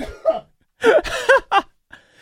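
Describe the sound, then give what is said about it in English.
Coughing from someone choking on zinfandel wine: a few harsh, voiced bursts spread over two seconds, fairly loud, with short gaps between them. “I choked on my Zin. There's a cough button, but I think you needed a heave button right there. Wow. I am seeing stars right now. That was such a hefty cough there.”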